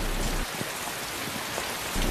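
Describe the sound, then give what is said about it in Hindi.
Heavy rain pours down steadily, a dense and even hiss that fills the whole clip at a constant loudness, with no voices. “अरे इधर साइबान में आ जाओ, बारिश कितनी तेज।”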